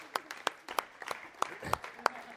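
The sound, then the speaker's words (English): An audience at a school gathering claps, sparse separate claps at an uneven pace, fairly soft and scattered rather than a full roar. “Round of applause, please.”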